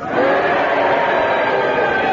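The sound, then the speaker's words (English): A game-show audience cheers and boos at the same time, making a loud, sustained mixed roar of many voices that swells in at the start and holds steady to the end. “Will you cheer if you think he's dead, and will you boo if you think he's alive? Starting now.”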